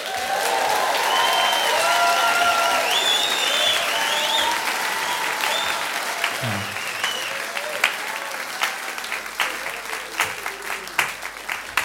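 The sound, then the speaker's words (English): Audience applause welcoming a band to the stage: a dense, loud wash of clapping from a crowd that thins out toward the end into scattered, separate claps. “Ladies and gentlemen, please put your hands together”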